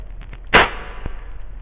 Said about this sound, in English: Oh wait, someone shot me. Never mind. It is but an insignificant bullet.